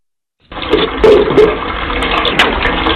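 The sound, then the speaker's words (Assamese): Water gushing from a tap after a household water pump motor is switched on to refill an empty tank. The loud, steady rush starts abruptly and runs on without a break. “দেউতা, পানী আহিল। মই হাত ধুই ললো।”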